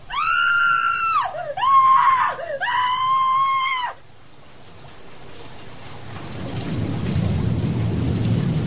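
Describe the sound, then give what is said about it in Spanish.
A woman screams inside a house: three loud, drawn-out wails in quick succession that swoop down and back up in pitch. Afterwards steady rain-like noise rises and fills the rest. “justo al abrir la puerta oigo un disparo dentro y un grito de mujer.”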